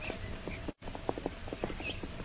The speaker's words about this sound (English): Jungle Jim and Shanghai Lil are riding northward into a trap set for them by the Maharaja of Ebor and the Silent One.